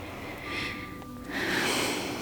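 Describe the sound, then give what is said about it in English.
Soft breathing of children asleep in bed, slow, gentle airy breaths swelling and easing with a low hiss, faint and steady with no talk. “I lay down beside the girls in bed, listening to their breathing,”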